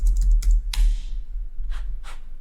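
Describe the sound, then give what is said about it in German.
Computer keyboard keystrokes as a follow-up question is typed into ChatGPT: a quick cluster of clicky taps at the start, a brief pause, then a couple of softer presses. “gehe ich wieder zurück in ChatGPT und schreibe, gibt es weitere?”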